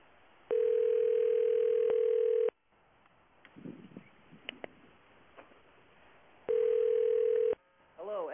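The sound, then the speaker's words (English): Telephone ringing heard down the line of a radio call-in show: two long, steady buzzing ring bursts in narrow phone-line quality, separated by a gap of faint, scattered noises, with a brief voice near the end. “Oh, answer the phone, noobs.”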